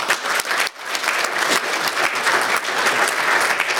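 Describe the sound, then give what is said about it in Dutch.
At a council meeting, an audience applauds the installation of a newly appointed alderman. The clapping is steady and fairly loud, with a brief dip near the start before it resumes evenly. “van harte gefeliciteerd met deze benoeming en deze installatie. U mag applaudisseren.”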